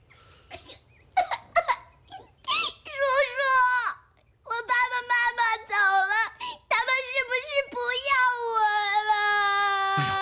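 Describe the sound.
A young child cries with short, choppy sobs at first, then several loud wailing bursts separated by gaps, ending in a long, sustained wail.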